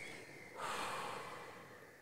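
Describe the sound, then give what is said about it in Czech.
A long, slow exhale through pursed lips: a soft, breathy hiss swells about a third of the way in, then tapers gradually. It is quiet and heard alone. “tak třeba dlouze táhle vydechnout, já tomu říkám skrz brčko, že našpulíme rty a pošleme ten vzduch”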